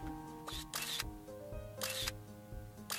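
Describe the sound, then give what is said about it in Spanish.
Camera shutter clicks from a hands-free robotic helper that takes photos on its own: a few sharp, crisp bursts over steady background tones. “take the picture.”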